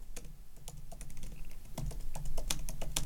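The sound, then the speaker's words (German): Typing a prompt on a computer keyboard, with many quick keystrokes tapping at an uneven, steady pace over a faint low hum. “Okay, ich tippe das jetzt hier einfach ein.”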